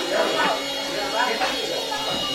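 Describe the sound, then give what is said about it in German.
A loud machine runs in an ice cream parlour, a steady buzzing drone that lasts the whole clip beneath indistinct voices. “Also, laut ist es in so einer Eisdiele, oder? Was meinst du? Findest du nicht? Ich habe nur die Maschine. Ja, die ist schon laut.”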